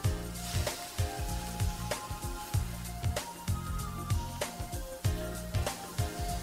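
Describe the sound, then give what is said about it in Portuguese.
Chopped tomatoes sizzling as they are added to a hot pan, a steady crackling frying hiss running throughout beneath rhythmic background music. “até que ele começa a mudar de cor e aí eu posso acrescentar os tomates. Aqui tomate picado.”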